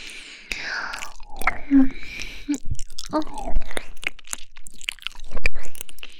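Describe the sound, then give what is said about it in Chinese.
Wet licking and mouth sounds close to an ear: many moist smacks, clicks and slurps, mixed with soft breathy vocal sounds. “人家这样舔你的耳朵，你就这么敏感吗？”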